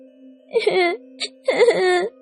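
A weak, sick little girl wails and cries in two drawn-out, loud bursts with a brief sob between them, all over a steady low tone.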